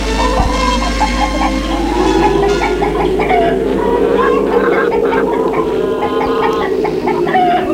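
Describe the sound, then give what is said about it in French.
Hens clucking while being fed, with many overlapping clucks forming a loud, busy, continuous chatter throughout. “en donnant à manger aux poules avec sa mère,”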